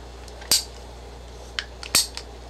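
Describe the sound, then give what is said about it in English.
A few sharp clicks from a ratcheting cutter working through PVC pipe, with two louder snaps and some smaller ticks over a steady low background hum. “You'll place your PVC pipe right inside. I'm sure this is all very self-explanatory, but we're going to show you anyways, and we're going to go through the ratcheting, and you'll see exactly what happens.”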